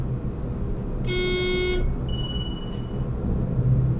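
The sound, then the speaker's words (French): The future Paris tramway, due to run from mid-December 2006, sounds a bright, tonal horn blast of about a second over a low rolling rumble, followed by a thinner, fainter high tone. “le son du futur tramway de Paris. Il circulera à la mi-décembre 2006.”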